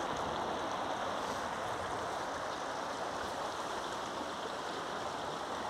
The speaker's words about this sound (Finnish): Se on viimeiset sulamisvedet virtaa tässä.